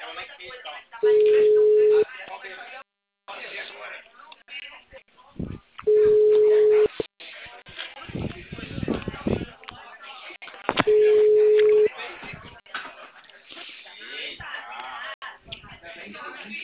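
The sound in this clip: A telephone line sounds after a dropped call at a busy call line. Three steady, mid-pitched beeps, each about a second long, come several seconds apart, with talk and line noise in between.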